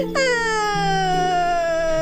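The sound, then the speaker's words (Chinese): A person crying in a drawn-out, tonal wail, one sustained vocal cry that sags slightly in pitch as it goes on, fairly loud and with no other talk. “哎呀，你别哭了”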